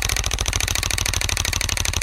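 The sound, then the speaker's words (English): A prize wheel spins on a radio show, giving off rapid, evenly spaced clicks. The loud, regular ticking runs steadily from start to finish. “It's time, ladies and gentlemen, to spin the Eddie Biegaj Wheel of Performance.”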